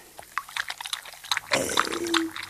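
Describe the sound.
Milk is poured and partly spilled, a soft liquid trickle and splash that swells midway through, faint and brief.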